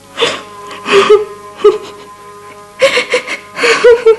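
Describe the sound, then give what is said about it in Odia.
A woman cries, sobbing and wailing in several tearful, breathy bursts with wavering, moaning pitch and short gasps between them, the outbursts loud and uneven. “ଏ କ'ଣ ତମେ କାନ୍ଦୁଛ?”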